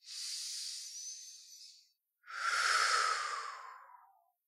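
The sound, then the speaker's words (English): Two deep cleansing breaths, soft and airy, are heard with no talking. The first is a higher hiss. After a short pause, a lower, slightly longer breath follows and tapers off gently. “You can take some nice, deep cleansing breaths. Let your exhale be just a little bit longer than your inhale.”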